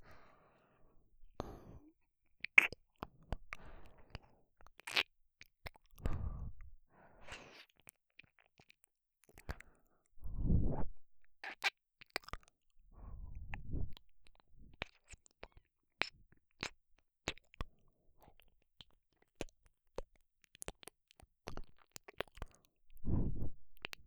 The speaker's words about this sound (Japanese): ほーら、耳にキス攻撃。